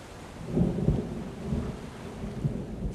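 Steady rain pours outdoors with low, rolling thunder rumbling beneath it, the rumble swelling in a few soft surges across a constant hiss of falling water.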